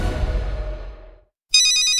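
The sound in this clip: A phone ringtone for an incoming call starts abruptly after a brief silence as a bright, high-pitched tonal melody, loud and steady, following a fading low rumbling sound.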